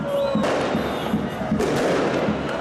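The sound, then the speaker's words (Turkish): Fireworks set off by football fans celebrating a Süper Lig win in a town centre, a dense barrage of cracks, thumps and whistling bursts over continuous crowd noise, loud and unbroken throughout. “Trendyol Süper Lig'in 6. haftasında Ahmet Sportif faaliyetlerinin Beşiktaş'ı 3-2 mağlup etmesinin ardından taraftarlar Şırnak'ın Cizre ilçe merkezinde havai fişekli kutlama yaptı.”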